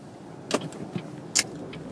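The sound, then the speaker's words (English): Car interior noise on a commute in Houston: a constant road hiss with a few brief clicks and knocks rising above it. “I'm just driving the commute.”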